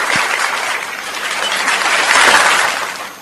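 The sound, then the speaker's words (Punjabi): Applause for a quiz show contestant, a dense steady patter of many hands clapping that swells slightly near the end before tapering off. “ਵਾਹ ਜੀ ਵਾਹ ਵੈਭਵ ਸੂਰਿਆਵੰਸ਼ੀ ਤੇ ਤੁਹਾਡੇ ਲਈ ਤਾੜੀਆਂ ਵਜਾ ਲੈਣ ਦੋ ਮੈਨੂੰ।”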